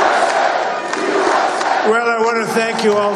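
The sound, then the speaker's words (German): Loud crowd roaring and cheering as Donald Trump takes the stage at his campaign headquarters in Florida after winning the election, with shouted chanting voices rising out of the din in the second half. “Jubel in Florida. Wahlsieger Donald Trump betritt in seinem Wahlkampf-Hauptquartier die Bühne.”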